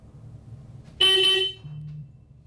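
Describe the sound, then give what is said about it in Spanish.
A car horn gives one short, bright honk over a low background rumble from a car that has been damaged and won't start. “Solo vamos a poder pitar.”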